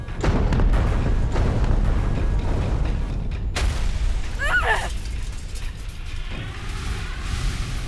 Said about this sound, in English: both ships begin a cascading set of explosions.